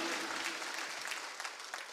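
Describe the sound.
A church audience applauds, producing dense, continuous hand clapping at a steady level throughout, without pauses or distinct individual claps.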